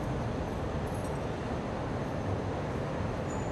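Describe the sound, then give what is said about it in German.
Light rail train rolling into a depot: a steady, dense rumble of wheels and car body holds at an even loudness throughout, with faint high metallic glints near the start and end, no voices. “Hinter ihm bekommt die erste Stadtbahn ihre Einfahrtsgenehmigung.”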